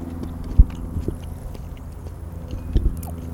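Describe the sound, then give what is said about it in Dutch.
Quiet chewing of an edible evening primrose flower, picked from a wild biennial plant in a food forest. Soft mouth sounds carry a couple of sharper clicks. “En dat is dus ook een eetbaar bloemetje. Dus ik moet hem wel gewoon proberen.”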